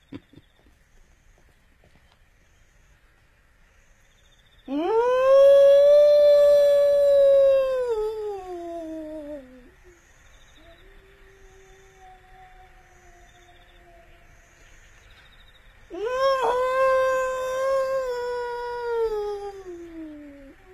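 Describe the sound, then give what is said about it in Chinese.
A person imitates a wolf howl with two long, sustained, tonal howls separated by a quiet gap. The first is longer and stronger, and the second is slightly softer. “这地方还有狼？ 要有狼就好喽，这是人学的狼叫。我得给他回两声”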